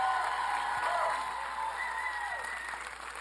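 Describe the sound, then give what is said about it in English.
Fairly quiet applause from an audience clapping for the fathers at a Father's Day gathering, a steady wash of many hands that stays fairly even across the short clip and eases off slightly toward the end. “If you're a dad, you guys can clap louder than that for the dads.”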